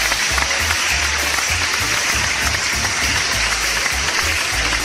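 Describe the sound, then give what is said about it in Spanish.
Applause, a dense and unbroken wash of clapping at an even level throughout, with a low rhythmic thumping running underneath. “Un aplauso para ti, carnalito.”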